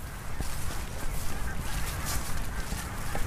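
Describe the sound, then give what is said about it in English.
A huge flock of geese lifting off and circling over an island, heard as a faint, dense wash of honking that stays even and unbroken throughout. “as we reach the centre, a huge flock of geese lift and soar overhead. They circle the island and the noise is incredible.”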